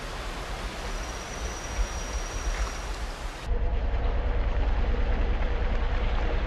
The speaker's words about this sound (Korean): 한바탕 비가 지당하고 나면 숲속 어디나 물이 흘러넘친다.